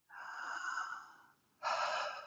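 Breathing during a seated twisting stretch with hands on the ribs, turning the torso to the left: two airy breaths, the first long and slowly fading, the second shorter and louder and starting abruptly, with no talking.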